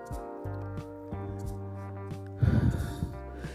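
A single loud, abrupt sneeze bursting out after a quiet stretch, set against a steady low humming tone.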